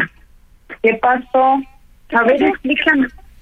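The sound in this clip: A phone rings with an incoming call, sounding as a few loud bursts of tonal, buzzy ringing separated by brief gaps.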